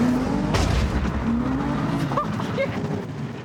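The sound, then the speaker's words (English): Race car tyre skidding off its rim on the 350: a loud, steady mid-pitched engine tone, broken early by a brief harsh burst and followed by rough scraping noise. “We may have just took a tyre off the rim on the 350. Yeah, you just completely destroyed your tyre.”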